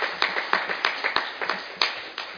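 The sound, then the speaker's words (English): A convention audience gives a round of applause for a school goalball coach. The claps are sharp and distinct, coming in an uneven, scattered rhythm from what sounds like a modest group of hands. “so let's give her a round of applause.”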